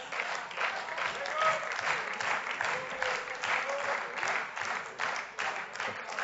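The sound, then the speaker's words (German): Applause fills a parliament chamber: a dense, steady wash of many hands clapping that continues without a break, swelling and easing slightly. “nach dem nächsten Satz wieder den gleichen gemeinsamen Applaus.”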